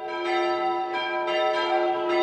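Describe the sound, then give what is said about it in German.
Church bells ringing at eleven o'clock to open a Pentecost gathering at a former village, several overlapping metallic strikes layered over a steady, sustained ringing hum, fairly even in loudness throughout. “Pünktlich um 11 Uhr war es Zeit, die Glocken zu läuten.”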